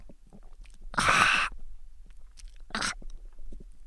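Sipping a cloudy drink: one long, noisy slurp, then after a pause a shorter second slurp, with faint mouth sounds in between.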